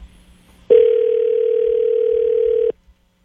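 A telephone rings during an outgoing call. One steady, mid-pitched electronic ring tone lasts about two seconds, then stops abruptly into near silence.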